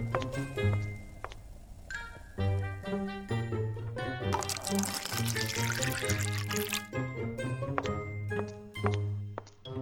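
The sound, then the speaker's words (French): Coffee maker in a kitchenette, started by remote control, brewing and pouring coffee: a gurgling trickle with drips and ticks, swelling into a stronger hissing pour midway before settling back. “elle manœuvra sa télécommande, mettant en route la cafetière qui se trouvait dans sa kitchenette.”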